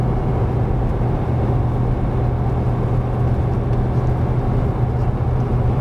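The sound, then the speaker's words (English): A truck engine labours as it climbs a hill while trying to hold speed. It makes a loud, steady, low drone with no voices. “So I'm doing my best to maintain speed, but yeah, I gotta drop one.”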